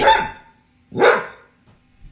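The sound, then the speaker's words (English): A household dog barks at a neighbor's passing dog: two loud, sharp barks about a second apart, followed by a couple of faint, low sounds. “This is the kind of thing we deal with, you know, with this kind of noise. Regular barking.”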